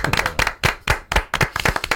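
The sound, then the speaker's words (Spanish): Applause and clapping from an audience, a dense run of many hands in loud irregular bursts, swelling and dipping over about two seconds with no voices. “Un aplauso para Paco Roca. Gran Paco Roca. Un aplauso para Paco Roca.”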